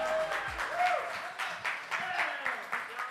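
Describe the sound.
Applause from a church audience welcoming a pastor to the stage: a steady wash of clapping with swells in intensity, and voices mixed in over it.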